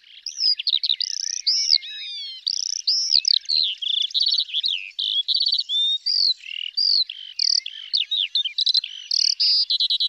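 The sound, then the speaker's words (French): A lark sings a long, unbroken stream of high, rapid warbling chirps and trills, with many quick notes packed tightly together, clear and alone. “clairement, parmi tous les oiseaux, l'alouette est une des espèces qui ne rigole pas sur le sujet du chant. C'est un des oiseaux qui est aisément capable d'envoyer des centaines de notes à la seconde.”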